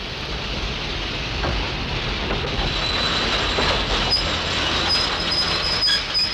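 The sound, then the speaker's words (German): A train rolls past below an open window, a loud, steady rumble of wheels and carriages with a thin high squeal of wheels emerging in the later seconds. “Schieb das Fenster hoch. Ja. Da kommt ja schon ein Zug.”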